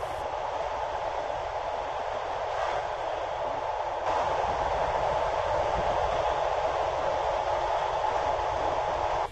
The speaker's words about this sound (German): Die Nacht war kurz, aber schön und der Zug rollte weiter in Richtung Süden.